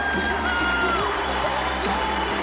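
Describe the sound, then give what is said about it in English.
An audience cheers as a performer is welcomed to the stage, with a dense, continuous crowd roar and shrill whoops and yells rising through it. “I want you to put your hands together and welcome him to the stage. Big round of applause.”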